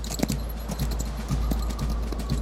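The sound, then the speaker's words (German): Horse hooves clip-clopping as a horse is ridden in a video game, a quick, steady galloping rhythm set within a loud, dense wash of other game sound. “Hey, das klappt ja schon ganz gut mit dem Reiten.”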